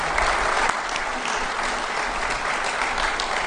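A church audience at Sunday morning worship applauds newly elected members: dense, even clapping that holds steady and fairly loud for the whole stretch, with no break.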